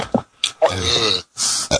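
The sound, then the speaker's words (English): A rasping, throaty burp drawn out for about half a second. It is loud and alone, set among a few shorter guttural grunts before and after it. “Burp.”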